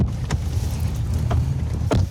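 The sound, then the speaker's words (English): A vehicle drives along a dirt road through a field in eastern Ukraine, making a steady low rumble with a few brief knocks and rattles over the top. “We're driving on a dirt road deep into a vast field that's somewhere in eastern Ukraine.”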